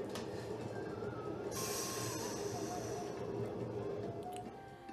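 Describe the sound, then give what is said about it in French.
A metro train runs with a loud, continuous rumble, overlaid by high-pitched wheel squeals and thin metallic whines that rise and fall. The noise eases slightly toward the end. “Le métro continue vous arrivez à la première station, celle du euh, Right Eye District.”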